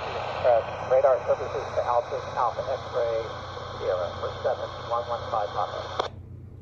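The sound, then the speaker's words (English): Airport radio traffic picked up on a scanner locked to an active frequency: narrowband, crackly transmitted voices talking in short bursts over a steady hiss, then the signal cuts off abruptly. “if you hit the, there's a button to make it stop scanning through the frequencies, and if you press that, it will just stay on that frequency. So if you pick up an active frequency from the airport like this.”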